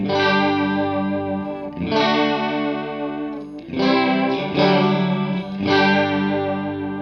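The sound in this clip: Electric guitar chords played through a chorus effect with the depth turned to maximum. Several sustained strummed chords ring out with a thick, wavering shimmer, loud and with no talking.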